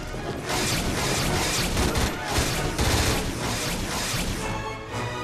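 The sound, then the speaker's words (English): Staff-shaped energy weapons carried by armored soldiers fire laser bullets in a dense, continuous barrage of rapid blasts that lasts about five seconds without a break. “gradually move in, dressed in armor and brandishing their weapon staffs that fire laser bullets”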